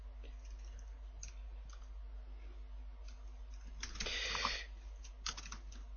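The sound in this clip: Typing on a computer keyboard, faint scattered key clicks that cluster into a brisker burst partway through, over a steady low hum.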